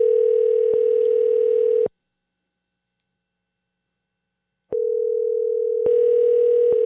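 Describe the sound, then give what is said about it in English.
Ringing tone on a phone call: a steady electronic tone lasting about two seconds, a pause of nearly three seconds of silence, then the same tone starting again and running to the end. “There's a lot of ringing going on.”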